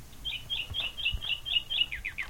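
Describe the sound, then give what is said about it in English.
Nightingale song on an old archived recording: a fast run of many high, sharp chirps in steady rhythm, fairly faint, over low background noise with a few soft low thumps. “So that actually has one of the older audio formats. It's the recording of a nightingale.”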